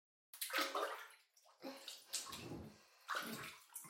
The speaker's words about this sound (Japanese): ジャブジャブってすすいてっと。綺麗に綺麗に。